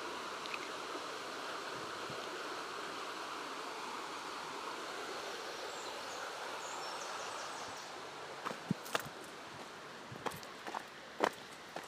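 Footsteps of someone walking behind another person beside a shaded stream: a few soft crunching steps come in the later part, over a faint, steady rush of flowing water.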